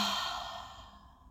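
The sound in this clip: A single slow breath out during a guided breathing exercise, a soft airy sigh that starts fairly strong and gradually fades to quiet.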